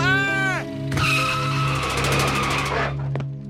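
A car's tires screeching as it skids to a halt, a harsh, loud screech lasting about two seconds, preceded by a falling tone and over a steady low drone.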